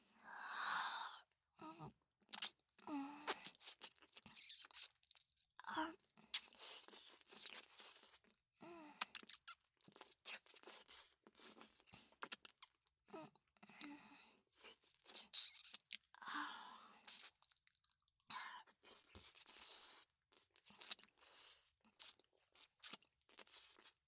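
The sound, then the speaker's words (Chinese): Someone chewing and eating food, with many loud, crisp crunching bites in irregular bursts broken by short pauses, close and steady throughout. “人家会努力吃进去的。”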